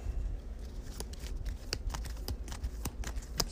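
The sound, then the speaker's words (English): Playing cards rustling and snapping as one is drawn from a deck during a tabletop game turn: a run of many light, papery clicks and slides, fairly faint and heard on their own without talk. “I'm going to draw another card.”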